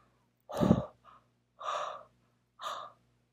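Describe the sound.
Breathy, warm exhalations onto a cold stethoscope to heat it: three soft, voiced huffs with a brief faint puff after the first, quiet and on their own.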